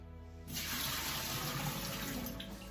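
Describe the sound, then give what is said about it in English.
Water draining from soaked sliced potatoes, a steady, faint rushing pour that begins after a brief pause and runs on evenly. “So now that my potatoes have been soaking for around 5 to 10 minutes, I'm gonna go ahead and drain them.”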